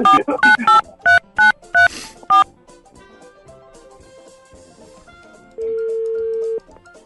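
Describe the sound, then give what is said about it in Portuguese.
A telephone number is dialed as a quick series of sharp keypad beeps, followed after a pause by one long, steady tone. “Vamos, vamos ligar para mais um.”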